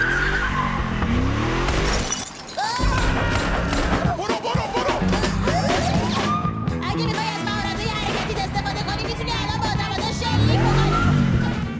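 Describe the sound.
A car driven fast and recklessly, with squealing tires swooping up and down in pitch over loud, continuous engine and road roar; voices are mixed in throughout.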